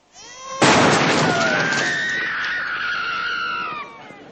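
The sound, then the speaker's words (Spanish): A sniper fires from a rooftop: one loud, sharp gunshot cracks out and leaves a long ringing, slowly fading tail with a faint high whine above it. “¡Están disparando desde arriba! El francotirador está en la azotea de un edificio.”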